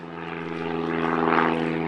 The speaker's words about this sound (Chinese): 我国首款7吨级大型运输无人机长鹰8在河南首飞成功，成为全球迄今首飞的最大货运无人机